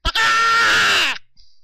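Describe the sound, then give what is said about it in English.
A voice imitates a creature's loud, peacock-like scream heard at night near a creek bank: one harsh, high, sustained cry lasting about a second, strong throughout, then cutting off. “this loud peacock scream, sort of like,”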